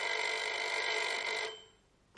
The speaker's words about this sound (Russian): И тут снова зазвонил телефон.